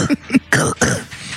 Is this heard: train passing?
no